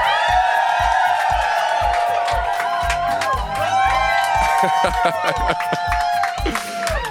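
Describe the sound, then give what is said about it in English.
A studio audience in a basement at the Defected headquarters cheers and whoops for a guest, with loud whoops and crowd noise over a steady, thumping music beat. “please, ladies and gentlemen, inside the basement here at the Defected headquarters, make some noise for the iconic, the legendary Simon Dunmore.”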